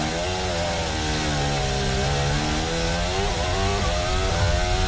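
A Formula 1 car's engine heard onboard, accelerating with a loud, continuous, high buzzing whine whose pitch shifts up and down as the throttle changes.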